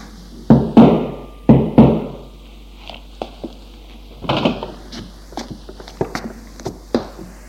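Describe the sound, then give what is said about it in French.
Knocking on the door of a home: a few loud, sharp raps in two quick bursts, followed by fainter scattered taps, clicks and rustling. “Samedi, j'allais frapper chez lui.”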